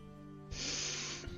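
A sharp inhale through the nose: a single airy hiss lasting under a second, faint over a steady low background hum.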